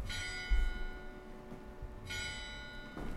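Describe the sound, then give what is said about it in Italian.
Church bell tolling midnight, twelve strokes in all. Here a few slow, loud strikes ring out alone, each with a bright metallic attack and a long humming decay. “Sono ripartite le campane esattamente quando, che poi ce ne sono 12, quindi ascoltiamo le campane in silenzio.”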